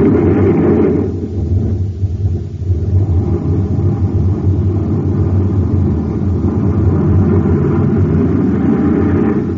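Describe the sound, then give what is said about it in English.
Rocket engines firing at blast-off: a loud, heavy, low roar that holds steady and unbroken for the whole stretch, with a dense rumbling texture and no voices. “Fire rockets.”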